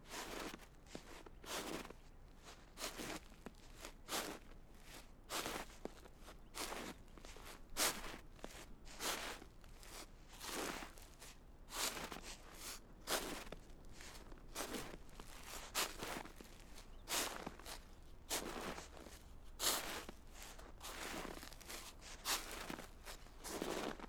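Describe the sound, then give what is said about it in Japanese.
Footsteps climbing a long stairway: many evenly spaced, soft steps in a steady walking rhythm, quiet and without talk. “ほら、あと少しでこの階段も抜けるから、もう一踏ん張りだよ。”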